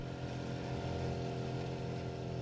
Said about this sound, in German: Am nächsten Tag schippert mich Esteban, einer der Fischer, mit seinem kleinen Boot einmal rund um die gesamte Robinson-Insel.